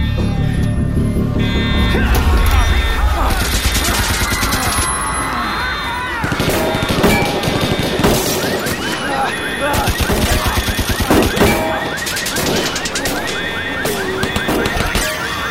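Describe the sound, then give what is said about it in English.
Gunfire erupts in a drama scene, with rapid bursts of machine-gun fire and sharp shots layered with crashing impacts in a dense, loud barrage. “As soon as the bullets start flying, you two are out that back door, okay?”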